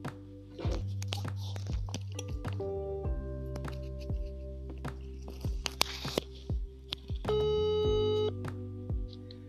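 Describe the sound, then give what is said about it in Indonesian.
An outgoing phone call ringing as an electronic tone pattern, steady tones stepping between pitches with short clicks, and a higher tone joining near the end, with no talking. “di sini gue bakal nelpon Saskia”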